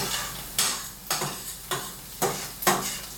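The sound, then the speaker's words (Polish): Onion frying in a pan is stirred in five distinct scraping strokes at a fairly even pace over a steady background sizzle, with no talk. “Teraz przemieszam sobie cebulę, bo ona już będzie”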